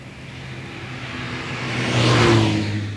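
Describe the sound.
A car drives through fog with a steady engine hum. It swells into a louder revving surge near the end, then eases slightly. There are no voices.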